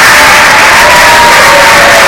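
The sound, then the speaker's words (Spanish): Deputies of the PSOE applaud in the Congress of Deputies after a vote to validate two decrees, a loud, continuous wash of clapping hands that fills the whole stretch without a break. “Y han aplaudido los diputados del PSOE después de convalidar esos 2 decretos”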